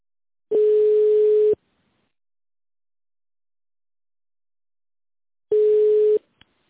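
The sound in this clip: Telephone line tone plays while a call is put through to a secretary: two steady, mid-pitched beeps of about a second each, separated by a long silence, then a short click.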